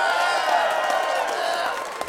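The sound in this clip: A studio audience responding to a clap poll on a talk show, a dense burst of cheering voices and applause that holds steady, then eases off near the end.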